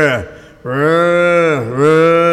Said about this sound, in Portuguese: Estão tirando leite essa horinha, mas estão chamando a vacada para ter aí a bezerrada berrando.